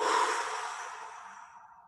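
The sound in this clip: A single long exhale of breath pushed out through the mouth: a soft, airy rush that starts strongest and fades steadily over about two seconds, heard alone without talk.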